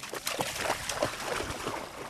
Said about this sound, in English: is splashing in the water and sniffing around.